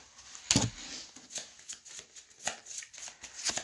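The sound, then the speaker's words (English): Playing cards being discarded and drawn during a tabletop card game, with many soft papery slides, flicks and rustles in uneven bursts, one sharper snap near the start, all faint and without talk. “Discard my hand. Draw four cards.”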